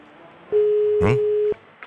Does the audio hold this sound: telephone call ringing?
yes